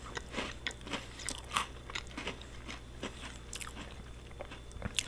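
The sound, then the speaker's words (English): Crunchy maple cookies are bitten and chewed in many quick, faint, crisp crunches that come in an uneven rhythm with no talking. “I like these. There's a maple cookie at Trader Joe's. It's good.”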